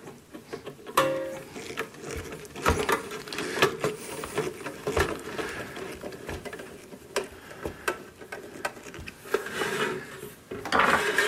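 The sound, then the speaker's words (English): Small clicks, taps and scraping come from four screws being turned into the cover of an audio mixer, irregular and fairly faint, with no talking. “Okay, I have the four screws. Let's see if we can get this cover screwed on here.”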